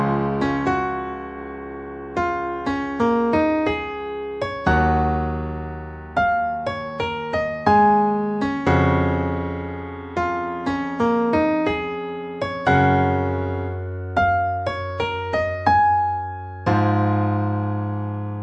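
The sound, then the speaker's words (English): Piano chords climb a simple diatonic scale in a rising passage that imitates a brass arrangement, with held notes under repeated ones; many loud, sustained struck chords and deep bass notes, no voices. “It's really hard to replicate on a piano with just 10 fingers because so many instruments are doing so many different things.”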